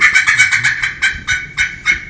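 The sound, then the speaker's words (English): A turkey cackle made on a friction call with a striker: a rapid run of sharp, high clucking notes that slows into a few spaced, louder yelps, with no talk. “Now, cackling is great. I love to cackle. And it's all about hand coordination.”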